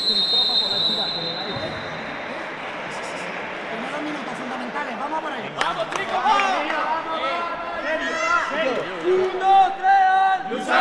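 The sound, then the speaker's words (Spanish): A crowd roars through an indoor sports hall during a closely fought match, a dense, steady wash of cheering and shouting voices that swells louder in the second half, with sharper high calls cutting through. “Máxima expectación antes de comenzar el choque, y es que la igualdad fue la nota dominante. Mirad cómo se escuchaba el pabellón con cada punto.”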